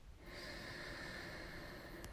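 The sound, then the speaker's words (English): A deep breath drawn in through the nose: a steady, airy rushing inhale lasting about two seconds, fairly loud and heard on its own. “I'm going to invite you to take a nice deep breath in through your nose.”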